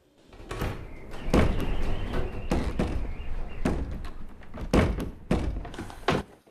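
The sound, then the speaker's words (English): Heavy thumping and rattling from a mysterious door hidden behind shelves in an attic as it shakes, with many irregular, loud knocks and bangs separated by shorter rattles, continuing throughout. “She is not present as the mysterious door behind the shelves starts to shake again.”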